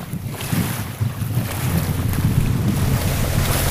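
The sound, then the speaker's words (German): A small motorboat travels across open water in a biosphere reserve in Quintana Roo, Mexico, giving a steady, broad engine rumble with hiss and gusting wind noise. “Mit einem kleinen Motorboot bin ich in Xian Can unterwegs, einem Biosphärenreservat und Welterbe der UNESCO im mexikanischen Bundesstaat Quintana Roo.”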